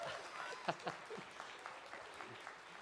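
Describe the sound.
An audience applauds in a church to welcome a speaker to the stage, a faint, even patter of clapping with a few louder claps and some voices mixed in.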